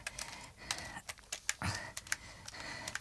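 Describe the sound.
Faint computer clicks come in an irregular run of sharp, light taps as someone clicks through photos on a computer.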